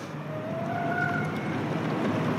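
A compact electric car in normal drive mode pulls away. A thin motor whine rises in pitch over steady, rushing road and tire noise, with no voices.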